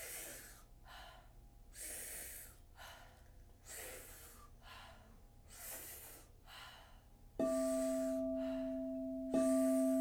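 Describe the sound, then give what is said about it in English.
Powerful breathwork breathing during a guided 40-to-50-breath exercise, with deep inhales and soft exhales repeating in a regular rhythm of airy, rushing bursts and quieter gaps. A steady electronic tone joins near the end. “So we're doing 40 to 50 powerful breaths. The inhale is as deep as you can take it, filling the belly, filling the chest, and the exhale is soft. It's just a third of that inhale, and it sounds like this.”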